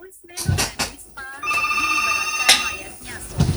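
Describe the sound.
A telephone rings for an incoming call, a sustained electronic ringing tone lasting about a second and a half, framed by brief clicks and clatter.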